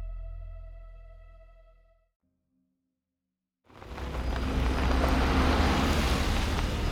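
Car pulling up to collect someone: a low humming tone fades away, then after a short silence a loud, steady engine and road rumble starts and holds to the end.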